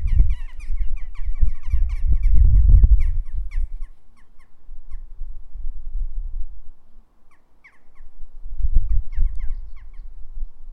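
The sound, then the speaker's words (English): About four birds squabble over a rooftop chimney pot, with many short, sharp calls and squawks in rapid bursts that fade midway and then return, over a low, steady rumble. “It's a bit of a dispute on the chimney as to which bird is allowed to stand on the chimney pot.”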